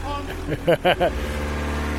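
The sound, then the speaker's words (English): A forklift engine loading a vehicle idles with a steady low rumbling drone, while a voice briefly cuts in over it for a few syllables in the middle. “I've managed to get the forklift driver to load our vehicle before theirs. I don't know if that gives us an advantage. This is a pleasure watching a forklift load something like this.”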